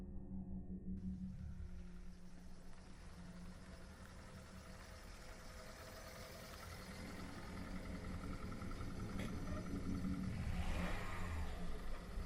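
A car engine rumbles faintly and low on a tree-lined road leading up a hill, holding steady at first and then swelling louder in the final seconds as the car drives up.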